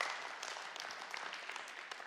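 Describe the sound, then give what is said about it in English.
Faint, scattered applause from a church audience clapping hands during a sermon, a thin, steady patter of claps with no single loud burst. “Oh, you can clap for that. That's fine.”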